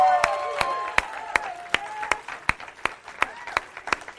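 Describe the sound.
Audience applause and cheering at a live event greet the reveal of a new logo, a steady rhythm of loud single claps standing out over the dense crowd clapping, with whooping voices in the first half.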